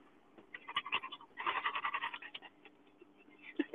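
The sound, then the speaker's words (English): A dog panting in quick, rhythmic bursts, fairly faint, with a denser, stronger run in the middle, then a lull before a few final breaths. “he'll pant. As soon as he gets to the car, he starts panting.”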